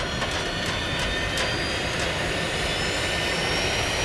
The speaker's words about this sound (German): Es ist hier sehr laut, weil der Kapitän die Düsen der Hypo Hyperspace angeschaltet hat.